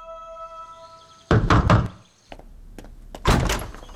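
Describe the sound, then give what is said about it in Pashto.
Knocking on a house door as a lawyer calls: a quick cluster of heavy raps, then a few lighter taps and another loud burst of knocks. No voices are heard. “څو ورځې وروسته د نظیم وکیل د قسیم دروازه وټکوله.”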